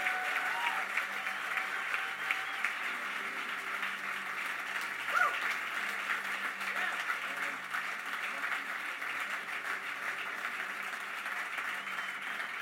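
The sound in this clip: A church audience applauds to welcome a visiting bishop at a Sunday morning service in Edmonton, Alberta. The clapping is dense and steady, holding at an even level for the whole stretch without a clear swell or fade.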